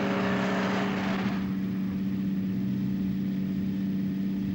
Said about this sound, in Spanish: El autobús sigue su camino.